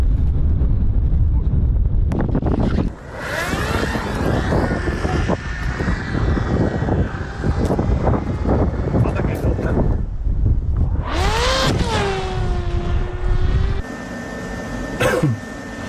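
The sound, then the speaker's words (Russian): A Leleka fixed-wing reconnaissance drone of the Ukrainian army, flying a mission over the front line, gives a loud, continuous engine whine mixed with heavy wind buffeting throughout. “Лелека – один из самых массовых БПЛА в украинской армии. Первая задача в очередном полете за линию фронта – по координатам найти российский танк.”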